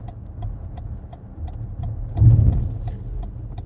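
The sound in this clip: Cars passing on a road: a steady low engine rumble swells as a vehicle goes by midway, with a regular light ticking click running throughout.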